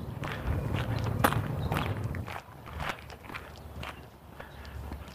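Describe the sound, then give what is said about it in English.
Footsteps of a person walking, a steady series of many soft treads at an even pace, alone with no talking. “Walking, not talking, walking, not talking, thinking about my shoulder.”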